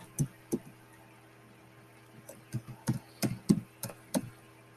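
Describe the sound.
Keys clicking on a computer keyboard: two isolated taps, a pause, then a quicker run of irregular, distinct clicks.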